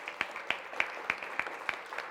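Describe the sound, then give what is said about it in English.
A small group claps at a live event to honor guests who have stood up. About seven sharp claps fall in an even, steady rhythm over a faint background hiss. “So give them a round of applause because it's brave.”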